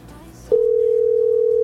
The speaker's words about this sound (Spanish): Dos timbradas más y si no, marcamos a otro oyente.